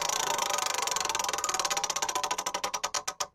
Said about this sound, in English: That's the spinning wheel on a game show. No one knows where it's going to land.